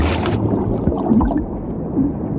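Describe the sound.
A person dives into water by a shore at night: a short, bright splash opens, then muffled, low underwater gurgling and rumbling runs steadily to the end.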